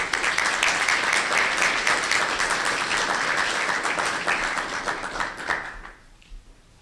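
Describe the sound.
Warm audience applause welcoming a speaker at a Federalist Society event, a loud, sustained wash of many hands clapping that thins out and fades near the end.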